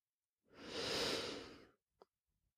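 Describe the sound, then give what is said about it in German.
A deep breath: one long, airy rush of breath swells and fades over about a second, heard alone against silence. “Atme noch einmal tief durch”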